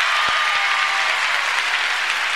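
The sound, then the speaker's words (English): A church audience claps their hands together in praise, a thick, continuous patter of many hands held at an even, fairly loud level. “Let's give Jesus Christ a hand clap,”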